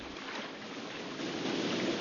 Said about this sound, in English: He ignores Ed and just keeps paddling.